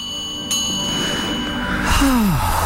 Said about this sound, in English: Ring, yes, ring okay. The New Age regression bell.